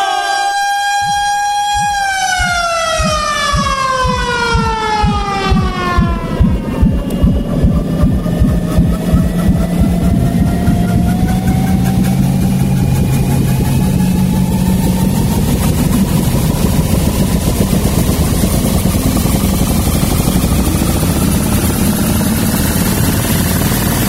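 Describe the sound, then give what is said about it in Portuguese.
A time machine starting-up sound effect: a harmonic electronic whine sweeps downward over several seconds, then gives way to a loud, steady droning mechanical buzz whose tone slowly climbs and then holds to the end. “Vamos acionar a nova máquina do tempo. Ligando a máquina do tempo.”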